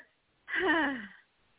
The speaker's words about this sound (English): You're a very light breather.